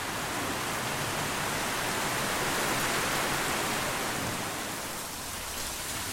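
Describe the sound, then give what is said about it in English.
Heavy wet-season rain pours down before dawn in Darwin, a dense, unbroken roar of hiss that stays loud and steady throughout, with no individual drops or pauses standing out. “So it's absolutely bucketing down here.”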